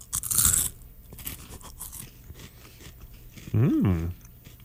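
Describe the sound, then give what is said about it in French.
Crisp crunch of someone biting into a pea, a dense burst near the start that settles into quieter chewing, followed near the end by a short voiced hum that rises and falls in pitch. “Es-tu prêt à croquer dans ton pois?”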